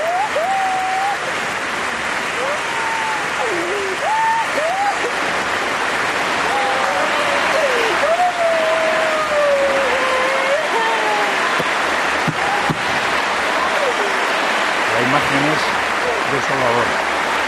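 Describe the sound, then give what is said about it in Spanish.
A crowd gives a sustained ovation at a badminton match after a player retires injured, loud steady applause running throughout beneath a voice talking over it. “Mira, mira qué ovación, Ángel a Carolina Marín”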